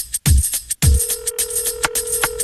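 A telephone rings with a steady, sustained electronic tone and a few short bright bursts, preceded by two low thumps near the start.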